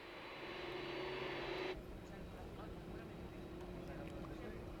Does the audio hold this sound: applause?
no